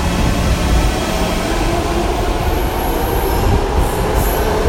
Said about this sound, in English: You can hear that the train going by is quite loud.